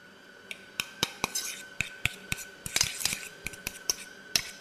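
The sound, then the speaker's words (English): A fork mashes one banana, about 60 grams of flesh only, producing many sharp, irregular clicks and taps with soft squishing between them, moderately loud and without talk. “Now I'm mashing up this banana with a fork.”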